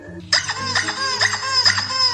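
A squeaky rubber chicken toy squeezed by a child inside a car lets out a few shrill, harmonic squawks in quick succession, loud and wavering, heard without talk.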